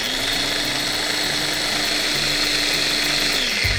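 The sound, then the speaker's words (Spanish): Food processor whirring as it blends garlic, nuts or almonds, lemon juice and olive oil into a smooth paste: a loud, unbroken motor drone, even in pitch, that shifts slightly just before the end. “agregamos el ajo, las nueces o almendras, el jugo de limón y el aceite de oliva y procesamos hasta obtener una pasta suave y homogénea.”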